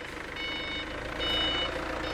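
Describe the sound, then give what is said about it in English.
Reversing beeps from a truck being unloaded of boxes of cookies at a food company in Taicang, China. A few slow, high beeps sound faintly over a low engine rumble. “workers at Shanghai Bokeh Food Company are unloading a truck filled with hundreds of boxes of cookies.”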